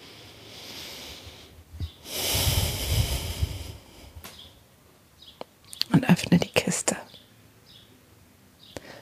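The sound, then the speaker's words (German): Deep breaths taken during a guided breathing exercise: a long, airy breath swells and fades, followed after a pause by a rougher, snorting burst of breathing, with quiet stretches in between. “Und dann, wenn du soweit bist, nimm 5 tiefe Atemzüge.”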